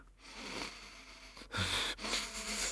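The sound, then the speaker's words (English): Slow breathing in and out, shown as a method for warding off seasickness: soft, airy hissing strokes broken by two short pauses, heard alone with no speech. “If you breathe in and out slowly, so,”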